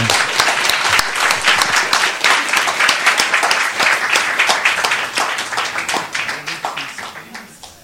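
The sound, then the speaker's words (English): Massive applause from an audience greeting a magician: loud, dense clapping from many hands that holds steady for about eight seconds, then thins slightly at the end. “So we will request Madhu Chanda with a massive round of applause.”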